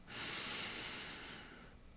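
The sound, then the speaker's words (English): A long, slow, deep in-breath: a soft, airy hiss that swells quickly, holds steady for about a second and a half, then trails away, quiet throughout. “Now let's take a long, slow, deep breath in.”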